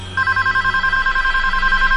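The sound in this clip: A telephone rings with a loud, rapid electronic warble of two steady tones pulsing quickly and continuously, over a low background hum.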